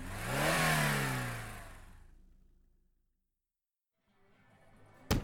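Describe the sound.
Car engine accelerating, a loud revving roar that builds and then fades out to silence over a couple of seconds, followed by faint rustling and a sharp knock at the end.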